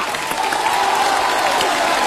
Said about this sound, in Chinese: 你那个掌声太少了，掌声掌声掌声掌声掌声掌声掌声掌声